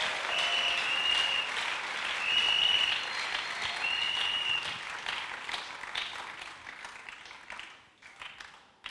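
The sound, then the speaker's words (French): Church audience applauding and cheering to acclaim the Lord: dense, sustained clapping with high shouts and ululating cries over it. The applause fades and thins toward the end. “Si quelqu'un n'est pas fâché, acclame le Seigneur. Kama kuna mtu ambaye asirika mshangilie Bwana.”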